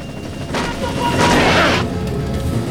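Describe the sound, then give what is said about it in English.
Gunfire strikes a helicopter in an audio drama: heavy crashing bursts and impacts build to a loud peak over a continuous low, rumbling engine drone. “The rebel opens fire again. Shit, we're hit! The chopper descends with smoke trailing from its engine.”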